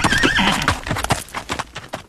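A horse neighs, a wavering high whinny at the start, followed by lower snorting sounds and a run of hoof clip-clops that trail off toward the end.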